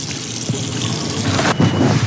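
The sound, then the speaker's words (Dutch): Water runs from a tap as hands are washed at a sink, a steady rushing hiss with brief splashing surges, the strongest one near the end; no talking. “moet nog ook even mijn handen wassen natuurlijk”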